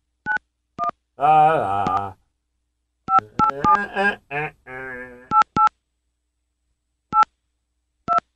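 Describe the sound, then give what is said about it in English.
Keypad tones of a mobile phone number being dialled: short, sharp, high beeps in irregular clusters, separated by stretches of talking. “All right, I'm going to try my dad's cell.”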